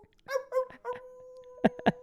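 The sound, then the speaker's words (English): Canine yips and a wolf-like howl: a few short whining calls lead into a long, steady, high wail, then two sharp yelps close it out, fairly loud and with no talk over it. “Woof, woof, woof, woof. Ooh, the wolf.”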